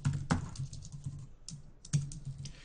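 Typing on a computer keyboard as a string name is entered: many quiet, irregular key clicks, some bunched into quick runs with short pauses between, and no voices.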